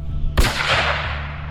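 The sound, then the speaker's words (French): A single loud gunshot from a firearm, a sharp crack that rings out into a long decaying tail over a steady low hum. “Il ajuste son arme sur Murphy et fait feu.”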